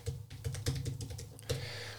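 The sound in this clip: Rapid typing on a computer keyboard as a website address is entered into a comments box, a quick, faint run of soft key clicks with a heavier tap near the end.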